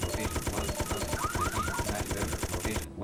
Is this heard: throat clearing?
no